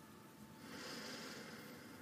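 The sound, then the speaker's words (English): A slow, deep breath in during a guided breathing exercise, a soft airy hiss that swells through the middle and holds steady, faint and alone. “and slowly exhale. Last one, deep breath in.”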